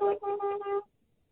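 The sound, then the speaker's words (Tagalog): A car horn honks with a brief blast and then a longer one, a steady mid-pitched tone that stops abruptly and leaves quiet. “Ngiyayizwa lihuthi.”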